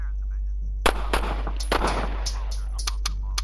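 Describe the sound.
Gunfire in a shootout rings out as a rapid run of sharp, loud cracks in quick succession over a steady low hum.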